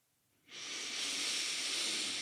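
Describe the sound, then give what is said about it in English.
A deep breath drawn in during a guided breathing exercise: one long, steady breathy hiss that begins suddenly and holds at an even level to the end, with no voices. “So I want you to start by taking a nice deep breath in.”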